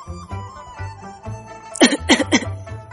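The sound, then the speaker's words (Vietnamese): A man pulled from shallow water gives dry coughs, a quick cluster of three harsh bursts in the second half over a faint low background. “Thật may là nước không có sâu, cho nên khi Triển Chiêu được hắn vớt lên tới nơi cũng chỉ ho khan mấy tiếng mà thôi.”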